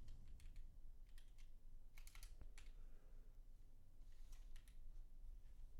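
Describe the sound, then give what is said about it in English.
Typing on a computer keyboard: faint, quick key clicks arrive in irregular clusters and short flurries with pauses between, alone with no voices. “Man, I cannot type at all today.”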